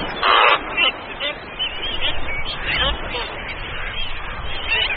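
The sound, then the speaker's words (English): Harsh honking and croaking calls of seven-month-old black-footed albatross chicks, several overlapping cries repeating steadily over a few seconds. “These 7-month-old black-footed albatross chicks have recently been abandoned by their parents, and now, driven by hunger, it's their time to get airborne.”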